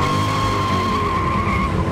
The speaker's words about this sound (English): On Jay Leno's Garage, he and Joe Biden, then the vice president, challenged each other to a drag race.